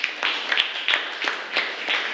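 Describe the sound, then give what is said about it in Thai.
A group clapping hands in applause for another group after its turn: dense, continuous clapping with a few louder swells and sharper individual claps standing out. “ปรบมือให้กับกลุ่มที่1ด้วยค่ะ”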